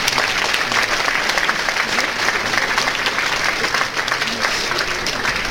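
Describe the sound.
Audience applause during a scoring announcement at a competition, dense and loud, steady clapping from a crowd throughout with a brief dip partway.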